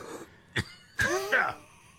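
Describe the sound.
Coughing and throat clearing from someone choking on something that flew into the throat: a short harsh burst, then a couple of louder, strained, voiced coughs.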